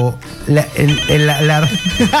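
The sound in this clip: An incoming call sets a telephone ringing with a repeating electronic ringtone pattern, while a person keeps talking over it throughout.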